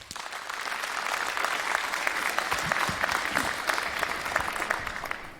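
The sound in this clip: Audience applause welcoming a speaker at a technical conference: dense, steady clapping from a crowd that holds at an even level for the whole stretch, with no voices standing out.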